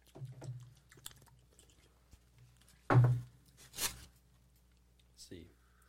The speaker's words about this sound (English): I've never tasted this here, so this is my first bite.